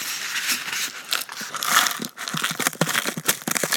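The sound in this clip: A wrapper is torn open with many quick crinkling and crackling rustles in an uneven, busy run of bursts, with no voices.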